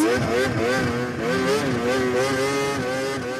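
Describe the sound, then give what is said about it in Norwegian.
A snowmobile revs at full throttle, a loud, continuous engine drone whose pitch wavers up and down. “anorakk nordmenn på ski blir forstyrra av en snescooter som gir bånn”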